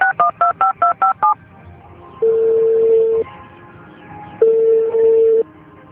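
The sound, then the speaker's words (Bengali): A mobile phone number is dialed as a rapid run of short keypad beeps. Two long, steady ringback tones follow, separated by a pause. “ঠিক আছে দাঁড়াও আমি dial করছি।”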